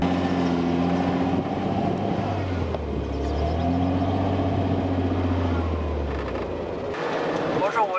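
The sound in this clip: Car engine straining to climb a steep sand hill at high altitude, where power is badly reduced: a loud, labored drone whose pitch dips and shifts as the revs struggle.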